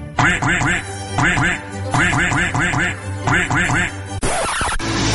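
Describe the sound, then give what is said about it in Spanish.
Duck quacking in loud, nasal, rapid bursts of three or four calls, repeating in a steady rhythm, then a brief noisy swoosh near the end. “Escucha el pato y a todos sus colaboradores todos los jueves en el programa cultural más inculto de la red, Conspiranoico.”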